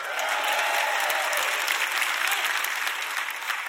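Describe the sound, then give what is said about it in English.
A church audience claps and cheers when asked to make noise for middle C, a dense, even burst of applause that holds steady throughout at a fairly soft level. “Anybody who thinks it's a good note, make some noise for middle C.”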